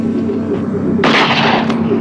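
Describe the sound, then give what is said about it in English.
A gunshot fires a silver bullet in a werewolf film scene: one sharp, loud blast cuts through a steady low hum about halfway through. “Chris shoots Jerry in the heart at the end of his sentence, and he drops out of frame dead.”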